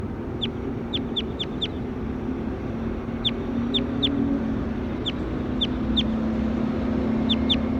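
Bird clucking like a chicken: short, sharp, high-pitched clucks come in several quick clusters, each with a few to five calls, over a steady low background noise.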